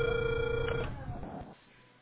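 A telephone ringback tone sounds while a call is being placed: a steady, clear electronic tone that holds for a moment and then cuts off, leaving a low, dull hiss with no voices.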